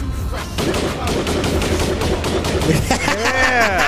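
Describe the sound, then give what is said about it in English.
Gunshot sound effect: a loud, dense burst of many rapid shots fired in quick succession, continuous throughout, with a wavering tone rising up near the end. “Yeah, you weren't expecting them shots, baby.”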